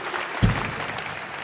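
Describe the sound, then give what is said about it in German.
Audience applause at a performance: dense, steady clapping that swells sharply near the start and then holds at an even level, with no voices. “Wir haben natürlich mit diesem Applaus gerechnet”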